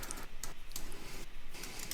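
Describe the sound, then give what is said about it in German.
Soft keyboard typing as someone writes something down: a series of quiet, irregular key taps. “Ich schreib's jetzt auch.”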